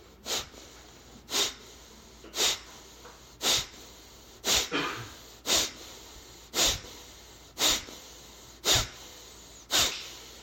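Forced exhales in a forceful breathing exercise: ten sharp, puffing breaths pushed out at a steady rhythm of roughly one per second, each a brief burst of breath noise with quiet between.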